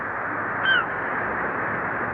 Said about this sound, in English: Those seagulls. Yeah, they're the tough ones. Never leave in winter. Find breakfast at tide's edge.